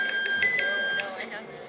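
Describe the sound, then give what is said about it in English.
Andy's cell phone rings in the film The Devil Wears Prada, a quick repeating pattern of bright, high electronic tones that stays fairly steady in loudness. “So you're going to take a sip every time Andy's phone rings.”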